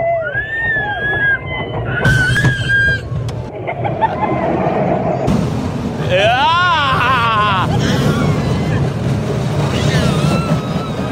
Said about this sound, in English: Let me show you how roller coasters begin for a lot of people. Watch this kid riding a roller coaster.